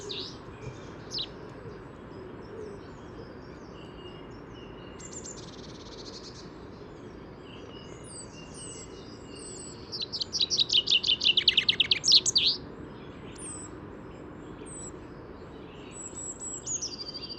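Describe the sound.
A male songbird's courtship babble song, added to its normal phrase to attract a female. A rapid, loud run of high chirps stands out midway, with scattered fainter high calls before and after over a steady background hiss.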